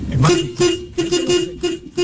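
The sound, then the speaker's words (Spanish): Car horns honk repeatedly in a traffic jam in Colombia: many short, mid-pitched toots in quick succession, with talk mixed in underneath. “Otro, ese es otro. Otro, tengo otro pito. Y dejen la pitadera”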